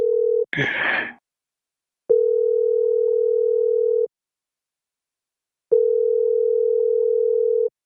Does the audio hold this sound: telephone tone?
yes